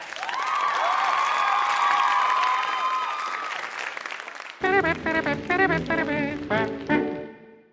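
Dense, steady applause from a crowd runs for about four and a half seconds, then cuts off and gives way to a different, tonal sound.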